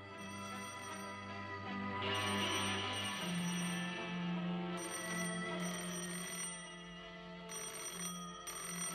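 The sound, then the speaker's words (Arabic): A telephone rings in repeated bursts of bright, trilling tone separated by short pauses, over a steady low hum, with no voices. “حلمي بيه رد على التليفون وخلي اعصابك هاديه.”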